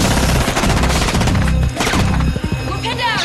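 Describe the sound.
Rapid gunfire in a crossfire, dense machine-gun-like bursts of shots rattling loudly and almost without pause, thinning into a few separate cracks near the end.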